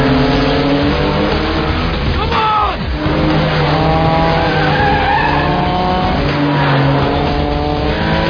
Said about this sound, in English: Silver Porsche, estimated speed 80 miles per hour, heading west on Wilshire Boulevard.